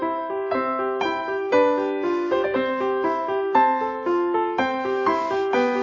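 Piano played by an eight-year-old child after a year of lessons, a steady melody of many clear notes over simple accompanying chords, played alone at an even pace.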